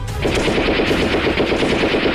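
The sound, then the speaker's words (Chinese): Heavy gun firing a fast, sustained burst of gunfire on a battlefield in a war against Japanese gunners: many loud, evenly spaced shots in a rapid, steady rhythm with no pauses and no voices. “金潘恨极，拿起乔大的重枪匍匐在地，三颗子弹连射，顿时将一名日本枪手脑袋打烂。”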